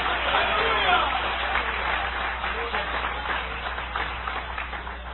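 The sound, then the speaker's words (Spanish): Church audience applauding, a dense, continuous patter of clapping with voices mixed in throughout, fairly loud and even. “Dale ese aplauso de poder al Señor. Dale ese aplauso de poder a Jesús.”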